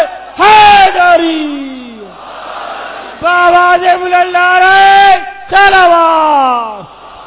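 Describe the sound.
A crowd chants a religious slogan in answer to a call, three loud massed shouts of many voices, each held for a second or more and sagging downward in pitch as it fades.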